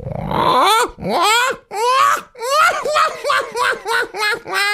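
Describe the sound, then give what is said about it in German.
A person's voice imitates black-headed gull calls: a quick series of many harsh, wailing cries, each sliding downward in pitch, repeated loudly with no other sound behind them. “Jetzt kommt eine leise Lachmöwe. Und jetzt wird die leise Lachmöwe ein bisschen lauter.”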